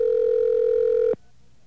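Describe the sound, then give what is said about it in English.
Steady, unbroken mid-pitched telephone dial tone as a call is placed again, holding loud for about a second before cutting off abruptly into near silence. “I'm going to call her again because this one's a stupid one. Let's try it one more time.”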